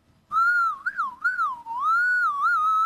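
A person whistles to prompt a small child to urinate, a clear sustained tone that wavers up and down in pitch and runs almost without a break for over two seconds.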